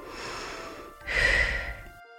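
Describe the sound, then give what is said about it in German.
A deep breath during a guided relaxation with eyes closed: a soft, steady inhale for about a second, then a louder, breathy exhale like a sigh, trailing off into silence. “Atme einmal tief ein und wieder aus.”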